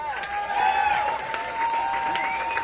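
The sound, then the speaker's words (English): Audience applause for a band member being introduced at a live show, a dense patter of clapping with a sustained musical tone running steadily beneath it. “Give a nice round of applause.”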